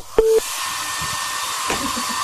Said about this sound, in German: Ja, Föhn noch ein bisschen, klar. Also dann äh, wird jetzt quasi noch geföhnt.